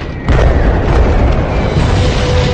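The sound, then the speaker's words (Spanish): Heavy explosions from a massive Allied bombing raid on a monastery in the Second World War: after a brief quieter moment, a loud, sustained booming roar sets in abruptly and rumbles on without a break. “Más de 200 bombarderos aliados lanzarán más de 500 toneladas de bombas sobre el monasterio.”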